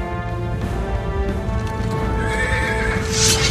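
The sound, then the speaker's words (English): Horses trotting, a white steed leading a troop of mounted samurai, with a steady clatter of clip-clopping hooves throughout and a whinny partway through, over a continuous tonal background. “In slow motion, Katsumoto's white steed trots ahead. His troops follow, bouncing in the saddle as they proceed forward.”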